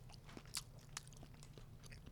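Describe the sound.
Faint chewing of artisan cheddar cheese rubbed with espresso and lavender: a couple of soft, crisp bites stand out over a low, steady hum.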